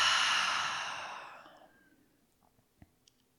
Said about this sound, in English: So deep, full breath in through the nose. Open the mouth, exhale it out.